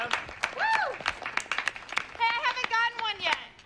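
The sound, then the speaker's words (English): A slow clap at an awards party: sparse, separate hand claps at a measured pace, with voices calling out over them. “Slow clap. Dundies. Yeah. Dundies. Everybody deserves a slow clap.”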